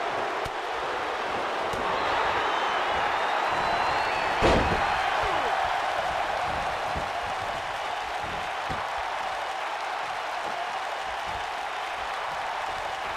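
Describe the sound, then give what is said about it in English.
A wrestling slam onto the ring following a dragon screw: one sharp, heavy impact about a third of the way through, over a continuous wash of crowd noise and cheering that persists throughout. “And another dragon screw. Followed by the slam once again.”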